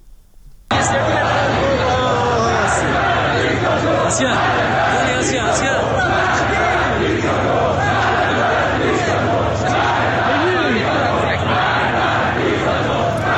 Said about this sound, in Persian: صدای ویدیویی رو میشنیدید که گفته میشد از شهر نوشهر و تحولات و اعتراضهایی که دیشب در این شهر رخ داده برای رادیو فردا فرستاده شده.